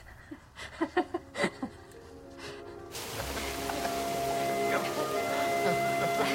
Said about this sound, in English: David and Jenny run through the London rain up stone steps to the concert venue.